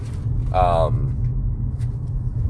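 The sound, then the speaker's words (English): A low, steady rumble of road and engine noise fills the inside of a moving car. A voice speaks briefly over it, and the drone continues underneath. “And we're sorry if the audio quality is not the greatest. Obviously, with this being done in a car,”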